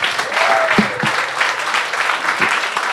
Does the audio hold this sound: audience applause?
yes

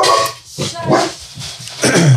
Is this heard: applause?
no

